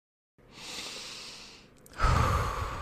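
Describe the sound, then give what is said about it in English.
A deep breath: a long, soft inhale lasting over a second, followed by a louder, breathy exhale with a low rumble, heard alone. “I need to take a deep breath.”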